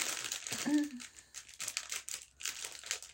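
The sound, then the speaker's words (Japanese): A plastic inner bag crinkles while being handled to open it, a run of dry crackling bursts of varying loudness, with a short voiced sound near the start. “これちょっと内袋開けるのにハサミが必要かな”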